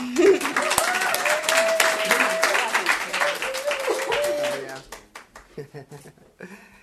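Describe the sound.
Audience applause welcomes a speaker onstage: dense, steady clapping fills about five seconds, then fades into scattered claps as a man begins to speak.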